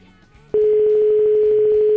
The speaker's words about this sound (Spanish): Ba, doa deian, ea tono ematen digun behintzat, ba, dirudi baietz.